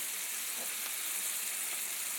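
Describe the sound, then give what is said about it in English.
Soft, steady sizzling as salsa cooks over low heat in meat pan drippings, a faint continuous hiss with no talk over it. “We are now going to barely, barely cook. Just put a little heat on. I'd say about half of our salsa.”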